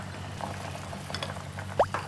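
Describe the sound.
Flour batter is poured slowly into boiling water, giving faint, soft bubbling with a few quiet liquid blips and one brighter plop near the end. No one talks.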